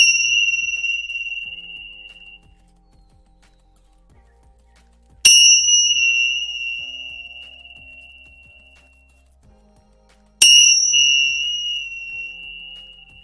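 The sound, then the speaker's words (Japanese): A Tibetan bell is struck three times at evenly spaced intervals. Each strike gives a bright, shimmering ring that fades slowly into near silence before the next, with no voices. “それではチベタンベル鳴らしますね。3回鳴らします。”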